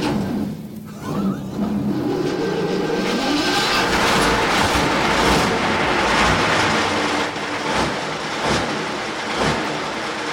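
A Russian tank engine starting with the hand throttle about three-quarters open: a rising whine builds over the first few seconds into an immensely loud, rough, continuous roar that settles into a heavy idle with occasional sharp knocks.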